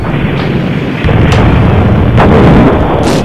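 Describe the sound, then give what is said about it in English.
Cruise missile launch: heavy booming blasts over a deep rumbling roar, loud from the start and stepping up in force partway through the short burst. “this is the sound of the cruise missile of my intellect being launched”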